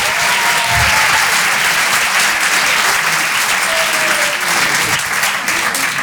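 Loud, sustained audience applause in a comedy club as a comedian is welcomed on stage: a thick, even wash of clapping that holds steady throughout, with no voices over it.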